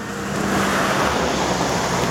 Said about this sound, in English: wait, hold for the vehicle.